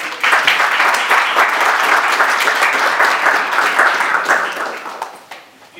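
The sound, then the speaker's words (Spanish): An audience applauds at a master-class session: loud, dense clapping that holds steady for several seconds, then thins and fades away at the end. “Démosle un aplauso.”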